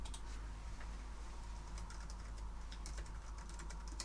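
Typing on a computer keyboard while writing into an online chat produces many quick, light clicks in an irregular run over a steady low hum.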